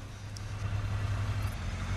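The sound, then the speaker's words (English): Engine of an open-top car reversing and turning in a driveway, a faint, low, steady hum throughout the couple of seconds. “They kiss as she sits in her open-top car, his son in the back. She suddenly reverses. Hey! They wave goodbye as she turns in the driveway.”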